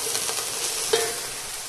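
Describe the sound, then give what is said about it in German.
Pork sizzles as it fries in a pan: a steady, fairly loud hiss that holds for the whole clip, with one brief metallic clink partway through and no speech. “das Schweinefleisch schneiden. ruhig ein bisschen drauf lassen und braten lassen.”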